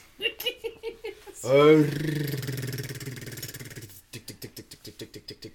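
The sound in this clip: A spinning prize wheel two and a half stories tall clicks in quick ticks, then gives a loud rasping, wheezy burst that fades over a couple of seconds before a fast, even run of ticks resumes.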